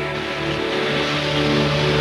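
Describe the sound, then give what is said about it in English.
Car engine running in a house driveway, a steady, loud low hum that holds throughout and swells slightly toward the end. “Unaware of the girls, Bert gets into the car and drives away.”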